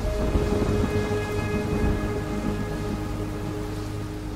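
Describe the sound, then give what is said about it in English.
Steady rain pours down during an outdoor wedding shoot, a dense, even hiss of drops with a low rumble beneath it, continuous throughout and without voices. “We can see now it's raining, so it doesn't really go according to the plan.”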